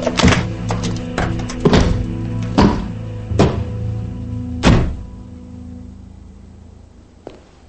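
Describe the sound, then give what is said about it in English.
Heavy thuds and knocks as a briefcase full of cash is put into a car trunk. Several sharp impacts come in an uneven series, then a long quiet tail ends with one faint tap. “Later, Thomas is putting a briefcase full of cash in the trunk of his car.”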